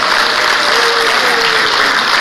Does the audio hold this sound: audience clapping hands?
yes